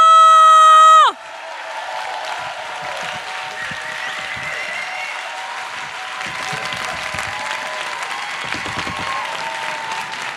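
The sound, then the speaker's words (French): An audience at a stand-up comedy show in Paris applauds and cheers a comedian, with a brief loud sustained musical tone at the start giving way to dense, steady clapping that holds strong throughout. “merci de faire une ovation à l'incroyable, la formidable”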